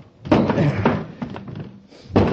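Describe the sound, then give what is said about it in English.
A door is being smashed, with a few heavy, dull thuds and a pause before the last loud blow. “I'll see if I can smash the door.”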